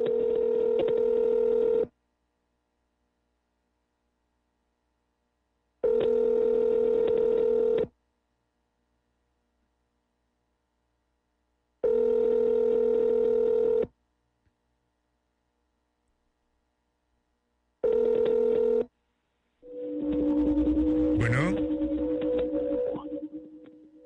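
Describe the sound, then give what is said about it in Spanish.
Telephone ringback tones from a call connecting through an internet phone service: four steady buzzing tones of about two seconds each, separated by long silent gaps, then a different wavering, warbling line tone. “state your name after the tone and Google Voice will try to connect you. Y en ese momento entra la llamada.”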